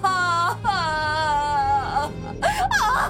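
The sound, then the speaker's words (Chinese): A child wails and cries loudly, with long, wavering, sustained sobs that bend up and down in pitch, followed by shorter broken cries. “女人抱住小孩开始撒泼，小孩也呜呜大哭。”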